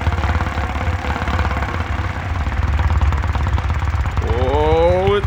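A game show prize wheel spinning, its pegs ticking past in a rapid, steady rattle of clicks that runs loud and unbroken throughout.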